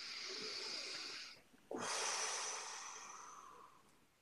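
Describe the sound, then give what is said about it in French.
A deep breath drawn in during guided meditation: a long, soft, airy hiss, a brief pause, then a second fuller rush of breath that slowly fades, with no talk. “Une inspiration.”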